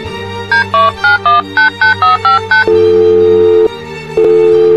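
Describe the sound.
Touch-tone keypad dialing on a phone calling a plumber: nine quick, loud beeps in a steady rhythm, then a long, steady ringing tone, a brief pause, and the ring starting again.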